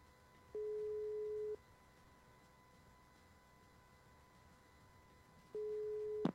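Outgoing phone call ringing tone: two steady, mid-pitched tones, each about a second long, separated by a long silent pause, with no voices.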